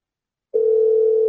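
A telephone dial tone sounds on the line: after a half-second of silence, one steady, unbroken mid-pitched tone comes in and holds at an even level to the end, with nothing else heard.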